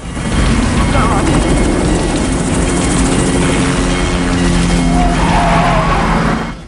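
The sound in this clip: Loud, steady roar of a police helicopter swinging past a car during a pursuit, rotor and engine noise blending with car sounds and skidding tires, holding at full level for almost the whole clip.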